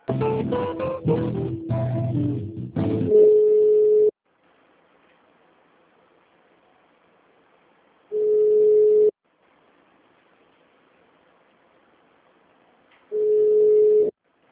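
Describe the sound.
Telephone line tones as a call is transferred: a brief stretch of music, then three long, steady beeps of the same pitch, separated by gaps of silence.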